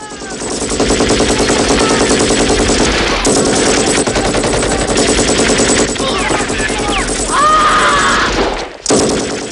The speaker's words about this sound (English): He jumps out and fires his belt-fed machine gun, mowing down half a dozen troops.